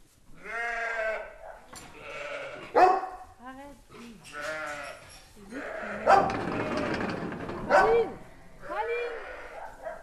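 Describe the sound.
Herd animals on an organic farm in France bleat at feeding time. Many overlapping, wavering bleats of varied pitch come loud and continuous, with a noisy rustling stretch in the middle.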